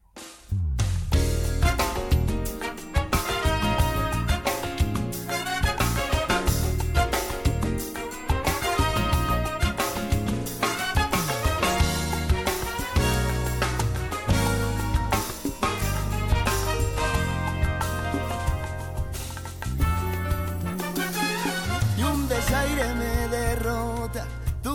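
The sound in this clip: Rumba music from a Spanish rumba group plays loud and continuously: a full band drives a steady, punchy rhythm over a strong bass, with dense strummed and percussive accents throughout.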